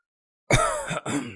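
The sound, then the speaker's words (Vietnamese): Dry, harsh coughing comes from another room of a small mud-walled house, in two rough bursts separated by a brief gap, with no talk. “Trong một gian phòng truyền ra tiếng ho khan.”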